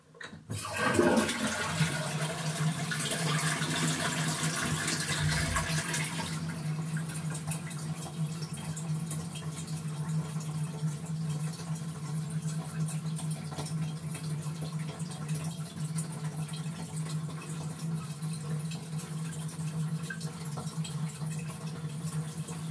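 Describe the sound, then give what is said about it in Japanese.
A toilet being flushed: a loud rush of water at the start, which settles into a long, steady hiss and trickle as the tank refills. No voices are heard. “はい、じゃあトイレの水を流します。”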